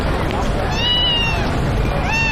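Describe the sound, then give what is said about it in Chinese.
A newly arrived black cat meows twice, with thin, high meows that bend in pitch and are set against a loud, dense background of steady noise. “你看他们家新来了只猫，好特别啊，它是黑色的。”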